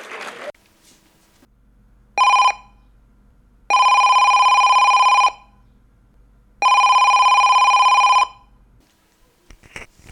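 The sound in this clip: A telephone rings for an incoming call: one short electronic burst, then two longer steady rings, bright and loud against near silence, over a faint low hum.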